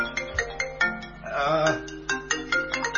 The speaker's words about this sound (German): es läutet das Telefon. Ich kann es nämlich nicht abschalten, beziehungsweise es macht keinen Sinn, weil es läutet an allen Geräten, die ich habe.